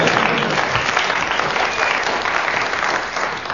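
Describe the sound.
Audience applause at a quiz show: a dense, steady wash of clapping that holds at an even loudness for several seconds and thins slightly at the end.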